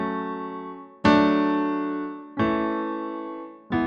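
An F sharp minor, D major, A major, E major chord progression, four full chords struck one after another at an even, unhurried pace, each ringing out and slowly fading before the next.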